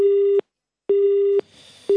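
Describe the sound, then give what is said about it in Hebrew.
Busy signal after a disconnected phone call: a steady, mid-pitched electronic tone that repeats on and off in an even rhythm, with two full beeps and the start of a third, heard alone with no voices. “שיחה נותקה עם חברת הכנסת לשעבר שולי מועלם”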